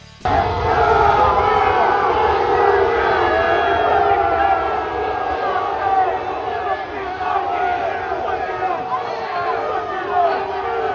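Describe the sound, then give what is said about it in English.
Unhappy Ole Miss football fans make a loud, sustained crowd roar. Mass shouting and yelling rise quickly at the start and hold at a steady, heavy level throughout. “That sound you heard was some unhappy Ole Miss fans.”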